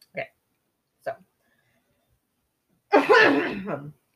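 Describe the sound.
Coughing from a person with phlegm after cold drinks and milk: two short, separate coughs, a pause, then a longer, louder, harsh hacking burst.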